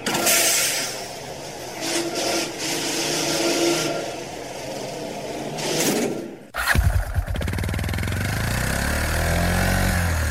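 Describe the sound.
Engine drone of an investigation pod driving over the moon's dusty, cratered ground. A rushing, noisy texture lasts about six seconds, then gives way to a steady, low, rumbling motor hum that holds to the end.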